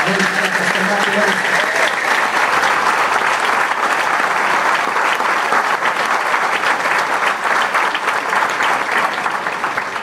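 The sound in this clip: Sustained applause from an audience at a church gathering, dense and steady clapping that carries loudly for the whole stretch, with a voice briefly audible at the start beneath it.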